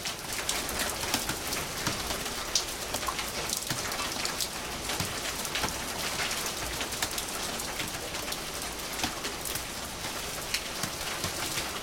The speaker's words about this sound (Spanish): ¡Está lloviendo!